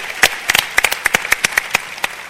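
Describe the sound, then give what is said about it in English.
Audience applauding senior leaders at a leadership gathering: scattered, sharp, crisp hand claps from a modest group, loud and irregular, continuing throughout without talk. “And Next Gen leaders, can we applaud our senior leaders in here?”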